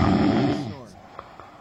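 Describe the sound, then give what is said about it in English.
A human voice imitates a dog snoring, making a low, rough, rumbling snort that fades out, followed by two faint clicks. “You sound like my dog it's snoring. It's an elephant. It's an elephant. That's exactly what it is, a dog snoring.”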